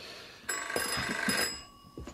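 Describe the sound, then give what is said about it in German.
A telephone bell rings in a shop: one bright, metallic burst of about a second, ringing loud and then fading into a quieter tail. “Telefon.”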